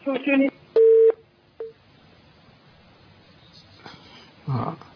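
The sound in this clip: Short steady telephone tones on a call to Algeria that fails to connect: one mid-pitched beep lasting about a third of a second, then a brief blip. Voices are heard before and after.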